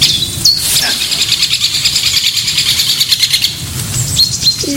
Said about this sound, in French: Ah, écoute, il y a un pic épêche. Tu l'entends?